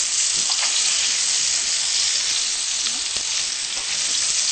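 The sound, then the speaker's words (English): Onions stir-frying in a pan give a loud, continuous, bright sizzle that stays steady throughout, with faint crackles scattered through it. “Okay, then we're going to add round onions in and stir fry this for a bit.”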